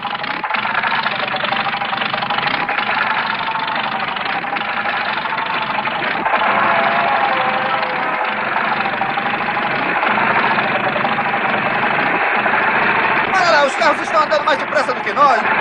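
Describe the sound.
Car engine running hard at full throttle, a steady, dense drone that holds level for the whole clip with little change in loudness.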